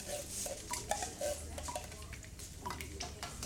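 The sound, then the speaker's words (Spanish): Dishes and cutlery clattering in a small café: scattered light clinks and knocks of crockery and metal, faint and irregular, over a low background murmur. “Nos metemos en el cafetín de Omar a charlar sobre temas poco importantes.”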